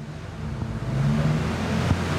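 A car pulls away with a steady low engine and road rumble at moderate level, holding even throughout with no clear revving peaks and no voices.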